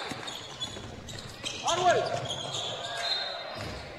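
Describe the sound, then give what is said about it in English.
A basketball is dribbled during a game, making a few dull, thumping bounces under the voices of commentators talking. “he'll dribble it off his foot”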